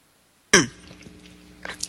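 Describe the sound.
A single abrupt cough from a tickle in the throat starts sharply and loudly, then trails into quieter throaty rasping, with a few brief noises near the end.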